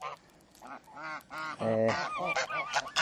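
Geese kept as grazing watchdogs in a fenced grassy yard honk at someone standing nearby, giving a rapid series of loud, nasal, brassy honks that overlap and rise in intensity toward the end.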